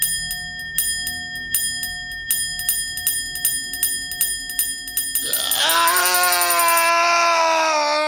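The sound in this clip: An old, disused communication bell swings on its own, ringing many steady, evenly spaced bright chimes. Partway through, a sustained wavering tone swells in and rings on over the final seconds.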